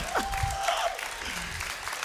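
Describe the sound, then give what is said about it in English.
Applause from a church audience right after a closing prayer: a dense, steady patter of many hands that holds fairly even for about two seconds. “If you guys want to, I guess I have to wait for the applause.”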